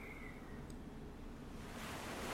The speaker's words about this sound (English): The sound of the waves is soothing, relaxing.